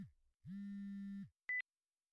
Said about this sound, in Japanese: あら、携帯が。